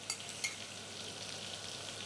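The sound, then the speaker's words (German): Butter and vermouth sizzle in a frying pan, a steady, dense hiss with a couple of slightly louder crackles near the start and no talking. “Hier haben wir die Butter noch mal schön aufgebraten mit dem Wermut.”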